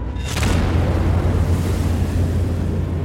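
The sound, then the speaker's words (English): The 30,000-ton battleship Arizona exploding as its own powder magazines blow, likened to a volcano erupting: a sudden loud blast gives way to a heavy, sustained roaring rumble that stays loud and low to the end. “The Arizona explodes in a mushroom cloud. The sound is described as a volcano blowing its top, It lifts the 30,000-ton ship out of the water.”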